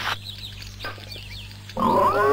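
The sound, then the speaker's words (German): A wild boar grunts in rough, breathy bursts over a low steady hum, ending in a louder, more tonal cry. “Es ist der Eber, mein Sohn.”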